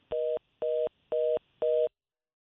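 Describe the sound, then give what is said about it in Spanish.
Telephone tone after a dropped phone call: four identical steady beeps of fixed pitch, each about a quarter second long, separated by short even silences. “Alejandro, se no ha caído la llamada con el doctor Ricardo Nieves. Eh, vamos a, intentar, a intentarlo de nuevo.”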